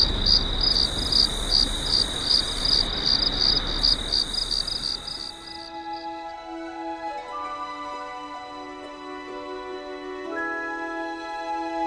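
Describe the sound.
A cricket chirps in a rapid, steady, high-pitched pulsing trill over a hiss, then gives way to soft sustained musical tones.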